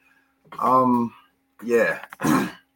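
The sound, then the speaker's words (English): A male host clears his throat in three voiced, rasping bursts: one longer rumble, a pause, then two quick gruff pushes close together, with no words spoken. “Trying to keep the throat clear and make it through this show.”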